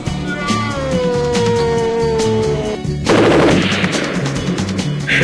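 Video game gunfire crackles in a rapid, dense burst of sharp, loud shots, arriving after a long sustained tone that drifts slightly lower in pitch.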